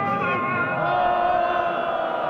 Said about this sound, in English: Those are protesters booing the call to prayer minutes before two people accused of treason are hanged on July 28th in a main square in Isfahan in central Iran.